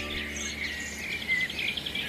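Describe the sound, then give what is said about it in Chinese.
Faint, rapid high chirps and twittering calls from a pair of blue tits at their nest run steadily through the whole stretch, with a thin chatter over a low background hum. “一对蓝山雀找到了自己的爱巢。”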